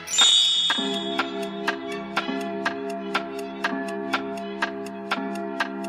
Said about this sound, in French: L'horloge sonna 5 heures.